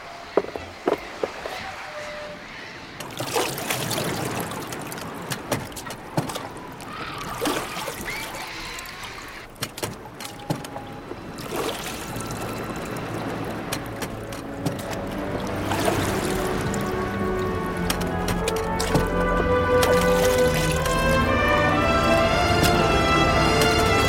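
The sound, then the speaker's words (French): A small boat being lowered from a ship into the sea: scattered knocks, thumps and creaks of handling through the first half, giving way to a growing, continuous wash and splash of water toward the end. “On va mettre le canot à la mer.”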